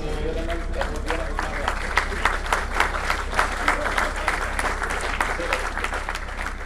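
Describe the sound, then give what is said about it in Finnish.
Applause after the ESA SMART-1 lunar probe crashed into the Moon: dense, steady clapping from many hands, sustained evenly throughout without pause. “Ja millekö tässä sitten taputetaan? Tietystikin sille, että luotain syöksyi kuun pintaan ja tuhoutui.”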